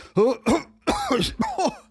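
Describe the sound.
A man with damaged lungs coughs and clears his throat in a few loud, harsh bursts, with no talking over them.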